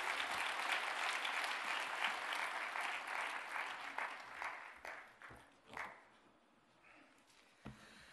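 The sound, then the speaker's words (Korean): Audience applause welcoming a guest speaker at a church service: dense, steady clapping for about five seconds, then thinning out into scattered individual claps that fade away. “우리 한번 큰 박수로 환영해 주시기 바랍니다.”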